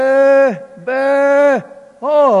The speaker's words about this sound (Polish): Trzoda ta, ocalona trzoda, te najwyborniejsze baranki zareagowały. A prorok mówi, a skąd ten ryk?